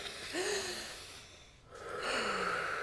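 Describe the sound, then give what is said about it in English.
A deep breath, drawn in and then let out: two long, soft, airy swells of breath noise with a short lull between them, fairly quiet and with no talking. “let's begin by taking a deep breath.”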